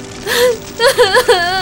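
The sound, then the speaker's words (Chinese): A girl crying in a few short, high, wavering whimpers and sobs, one drawn out and then a quick cluster, loud and with no words spoken. “还哭，别哭了。”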